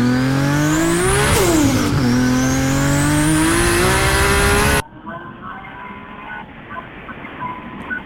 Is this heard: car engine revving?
yes